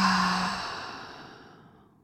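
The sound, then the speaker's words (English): A deep breath exhaled through the mouth, a soft, breathy rush of air that starts fairly strong and slowly fades away over about two seconds. “Take another deep inhale, hold it, and exhale through your mouth.”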